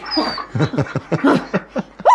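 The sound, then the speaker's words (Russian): A dog yips and whines in many short, varied bursts, its pitch bending within each call, with one higher yelp near the end and no clear talk around it. “что она у тебя разлаялась-то? Она не лает, разговаривает.”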